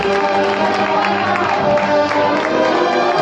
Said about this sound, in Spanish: Llueven los aplausos desde las aceras, llueven desde los balcones.